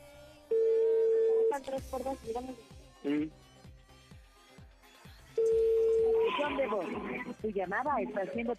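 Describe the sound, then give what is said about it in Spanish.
Ringback tone of an outgoing telephone call, with two long, steady rings several seconds apart and muffled voice-like sounds in the gaps between them. “le estoy marcando, ojalá conteste porque pues guardó silencio y yo creo que después colgó”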